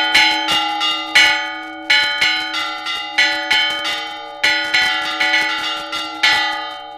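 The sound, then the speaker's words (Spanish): Two church bells ring a traditional storm-warding toll, with many loud, bright strikes in uneven clusters, each ringing on and fading before the next burst. The bells sound alone with no talk. “Solo tocaba, me ha parecido oír dos campanas.”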